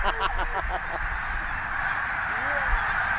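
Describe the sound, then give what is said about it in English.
A large flock of a couple hundred birds calls as it comes in to land. Honking, quacking cries stand out at first, then blend into a dense, steady wash of noise. “Oh, look at that flock coming in now. That's like a couple hundred.”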